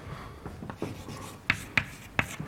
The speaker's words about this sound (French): je vais l'écrire d'une façon qui vous est peut-être pas familière